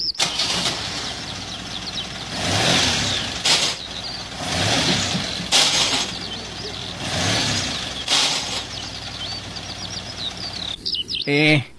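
Car engine revs in a few loud, rough surges as the driver fails to engage any gear, the vehicle's clutch worn and needing replacement. The bursts rise and drop back to a steady idle, with faint high chirps over the noise.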